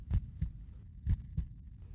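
A heartbeat pounds in two low, muffled lub-dub double thumps about a second apart, with nothing else heard around them.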